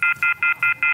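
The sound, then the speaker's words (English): Telephone off-the-hook warning tone: five loud, shrill beeps in quick, even succession, each a short burst separated by brief gaps, with no talking. “When you hear that, you'd freak out trying to find, that's off the hook.”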